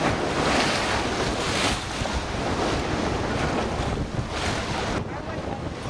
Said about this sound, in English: We're reaching now with the wind at our beam, so it's a little smoother than beating right up into the wind, but we're doing 8 knots.